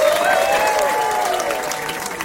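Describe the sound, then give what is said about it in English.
Audience applause welcomes a performer onto the New York Stage, a dense, steady wash of clapping that stays loud and even from start to finish. “Put your hands together. Welcome back to the New York Stage, Mr. Rod Carter.”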